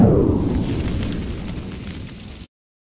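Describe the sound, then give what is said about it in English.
A bomb explosion sound effect: one loud, broad blast with deep rumble that decays slowly, then cuts off abruptly after about two and a half seconds, leaving silence. “I should have gave myself a bomb for that, because that was funny.”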